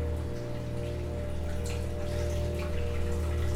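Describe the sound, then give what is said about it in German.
Water runs continuously in a toilet next door, a steady, even hiss layered over a low hum that holds at a constant level with no breaks. “Nebenan läuft die ganze Zeit das Wasser in der Toilette.”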